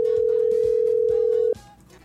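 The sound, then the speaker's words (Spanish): A steady telephone dial tone holds one unbroken pitch for about a second and a half, then cuts off abruptly, leaving only faint background noise. “Vamos a marcar por aquí. Vamos a ver un poquito los datos. Ahí estamos marcando.”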